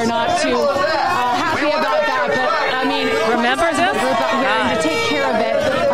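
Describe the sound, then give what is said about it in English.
Trump supporters outside an election center yell profanities, Trump's name, fake-news taunts and complaints about Sharpiegate. Many loud voices overlap in a dense, continuous clamour with no break. “a lot of profanities being yelled, a lot of people yelling for Trump. They support him, but also yelling fake news and yelling about Sharpie Gate that we've been talking about the whole time.”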